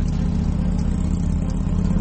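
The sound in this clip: Motorcycles riding by on a road, heard as a steady, loud low engine rumble with a constant hum and no distinct rise or fade.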